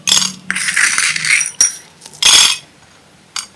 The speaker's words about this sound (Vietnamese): Đó, bỏ đá này. Đó, bây giờ mình đã có một cái gia đài phun nước bằng là phun gốm, rất là đơn giản.